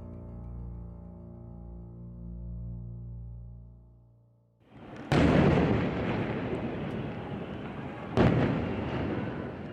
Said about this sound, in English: The sound of Palestinian rockets fired from Gaza intercepted in the skies over Israel.